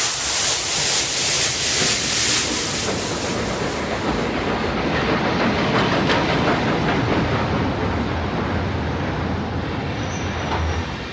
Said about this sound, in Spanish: el tren pampeano que llevó a René Favaloro hasta Jacinto Arauz